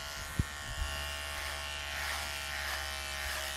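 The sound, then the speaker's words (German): Electric razor buzzing, a steady, fairly quiet hum with a bright hissing edge that runs without a break, with two small clicks near the start. “Ja, das sieht nämlich fast so aus wie der Communicator aus der ersten Serie. Aber ist ein Elektrorasierer, ne?”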